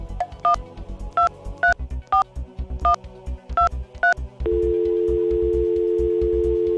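Touch-tone keypad dialing a phone call: eight short beeps at uneven intervals, followed by a steady continuous line tone, with no voices.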